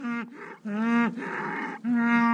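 Cattle lowing on a farm where they are fattened for slaughter: three loud, deep, drawn-out moos follow one another almost without a break, each holding a steady low tone with rich overtones.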